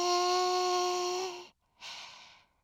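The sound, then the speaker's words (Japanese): A deep breath taken during a guided relaxation exercise: a long, airy rush of breath with a steady tonal hum beneath it, a short silence, then a second, softer breath that fades. “そのまま深呼吸もしてみましょう。深く息を吸って”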